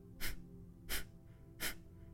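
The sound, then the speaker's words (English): Three short, sharp nasal exhalations from a breathing exercise, evenly spaced and forceful like blowing the nose, with quiet pauses between them. “They're short, sharp exhalations, and the inhale just happens naturally, sort of like you're blowing your nose. And it sounds like this.”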